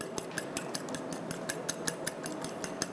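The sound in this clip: Eggs are beaten in a bowl with a utensil after a tablespoon of seasoning is added, producing rapid, even clinking and tapping strokes in a steady rhythm, with no talk.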